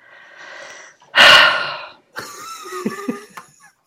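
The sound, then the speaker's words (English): A deep breath drawn by a speaker: a faint breathy lead-in, then one loud, rough rush of air, followed by quieter voiced murmuring sounds. “I'm taking a deep breath here.”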